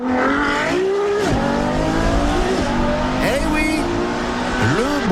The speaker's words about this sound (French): Parce qu'une Ferrari, ça fait du bruit, c'est même à ça qu'on la reconnaît.